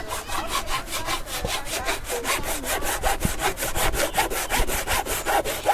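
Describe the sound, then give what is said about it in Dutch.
A saw cuts through pallet wood during a furniture-making workshop, many fast, even back-and-forth strokes in a steady rasping rhythm that holds a constant loudness throughout, with no talk. “Oh, ik dacht dat je mijn gitaar aan het kapot zagen was.”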